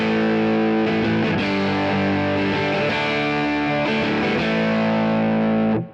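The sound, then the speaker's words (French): Electric guitar played through a multi-effects pedal on a factory Fender amp preset: full, sustained chords with a few restrikes, slightly gritty and ringing steadily before cutting off at the end. “Donc là par exemple, on est sur un son d'usine, on a un son de Fender.”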